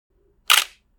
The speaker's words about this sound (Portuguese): Preste atenção no disparo da Nikon D800.